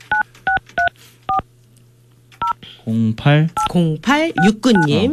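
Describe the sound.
Telephone keypad tones sound as a caller is connected: five short, crisp, evenly pitched beeps with uneven gaps between them, followed by a person talking.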